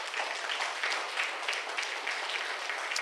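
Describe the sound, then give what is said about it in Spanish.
A church audience applauds during a sermon, with a steady patter of many hands clapping at a moderate, even level across the few seconds. “Otro aplauso a Él que vive.”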